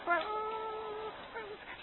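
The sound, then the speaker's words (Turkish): A dog whimpers in a radio drama sound effect: one long, drawn-out, high whine, then a shorter second whine, with no talk. “Bu köpek bana doğru geliyor. Dur şuradan bir taş alayım.”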